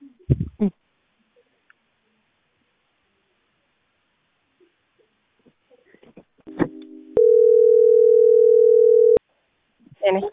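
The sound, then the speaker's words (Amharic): A telephone dial tone sounds after a call on a coin-fed phone drops when the coins run out. It is one flat, unbroken hum lasting about two seconds, with brief talk before and after it. “ስለ ካናዳ አሁን እያወራሽኝ ስልክ ተቋረጠብኝ። አዎ አዎ። እሺ ሳንቲም ጨርሶብኝ ነው።”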